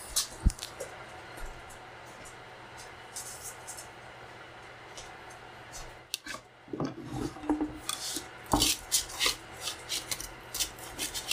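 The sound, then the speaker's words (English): A spatula scrapes a pizza off a metal pizza tray with rough, rasping strokes. The scraping is faint at first, then comes as many louder, uneven scrapes in the second half. “Now we carefully spatula the pizza off of the pizza tray.”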